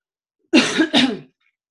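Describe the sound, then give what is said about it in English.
Two harsh coughs from a person whose lingering cough remains after pneumonia, heard alone with no talk; each is a loud, rough burst, the second following closely after the first. “And the cough is, the residual cough is just kind of hanging on.”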